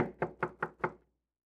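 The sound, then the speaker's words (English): Five sharp knocks at a door in an even, steady rhythm, each a short bright rap, heard alone with nothing else around them. “But the next thing you know, there's a knock at the door.”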